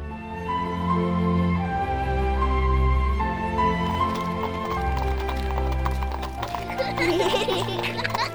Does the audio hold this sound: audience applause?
no

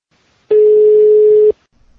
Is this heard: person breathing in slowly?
no

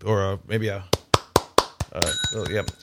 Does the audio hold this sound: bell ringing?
yes

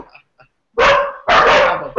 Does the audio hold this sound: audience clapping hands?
no

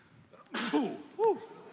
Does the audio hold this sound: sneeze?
yes

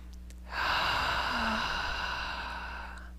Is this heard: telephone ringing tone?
no

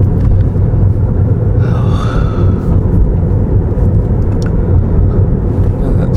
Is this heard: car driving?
yes

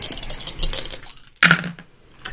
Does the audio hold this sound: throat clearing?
no

